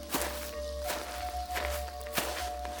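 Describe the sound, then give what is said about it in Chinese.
Footsteps crunch through dry fallen leaves among the trees of a palace garden at night after a rainless week, a few soft, scattered steps over a faint, steady low hum. “地上枯叶随着他的脚步悉数作响”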